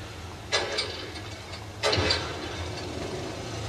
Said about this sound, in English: Put the light pole back on. It's run by a generator.